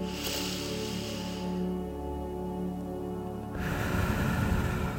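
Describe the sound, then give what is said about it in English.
Slow, deep inhalation through the nose during a guided meditation: a soft airy hiss over a few seconds, set against a steady, quiet musical drone. “when you breathe in, you want to breathe in through your nose and you want to feel your belly expand. So let's do a practice one. I'll do it with you.”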